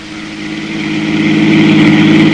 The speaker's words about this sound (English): I was driving Mysto back to the Casablanca Club, where he was the headliner of the floor show.